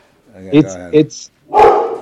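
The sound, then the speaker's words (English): Coyotes bark and yip: two short tonal yips, then a rougher, louder bark, all quick and close together. “Uh-oh, we got coyotes.”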